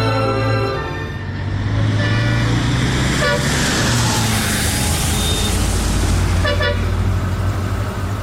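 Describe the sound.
A car drives with its engine running loud and continuous, and short horn toots sound over the steady roar.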